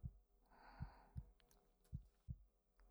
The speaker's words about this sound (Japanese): 先輩に対する愛情が心臓の鼓動を通して伝えられていく。溶けるような染み込むような心音、